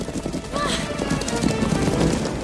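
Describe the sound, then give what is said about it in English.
A herd of antelope bolts across the savannah grassland in a dense drumming of many hooves. The rumble stays continuous and fairly loud with no clear gaps. “Elsewhere on the savannah, Kiara sneaks through long grass toward grazing antelope. They suddenly take off.”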